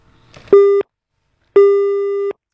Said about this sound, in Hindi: लगता है हमारी कॉल जो है वो डिस्कनेक्ट हो गई है।